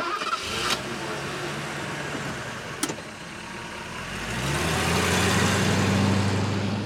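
A car engine starts and the vehicle drives off. A couple of sharp clicks come early over a steady background hiss, then a low engine drone swells and grows louder through the second half.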